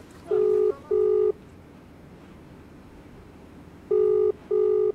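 Telephone tones of a phone call placed to Delhi: four steady electronic beeps in two pairs, separated by a long pause, clear over a faint hiss.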